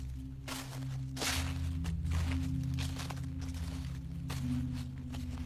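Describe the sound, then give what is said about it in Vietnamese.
Slippers shuffle over a dirt floor and crunch dry leaves outside: soft scraping steps at a slow, steady pace, faint above a constant low hum. “ông nghe tiếng bước chân. Đúng là tiếng dép loẹt quẹt đi trên nền đất, dẫm vào mấy cái lá khô ở bên ngoài.”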